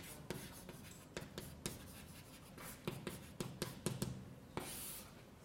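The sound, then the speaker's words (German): Handwriting during a physics lecture: a faint run of short, irregular scratchy strokes and taps, with quiet pauses between them and no talking. “also schreiben wir es mal hin”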